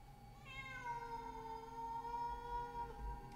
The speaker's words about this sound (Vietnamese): Thì nghe ấy là tiếng con mèo nó kêu. Mà khổ, trong đêm vắng, nghe tiếng con mèo kêu đến não lòng.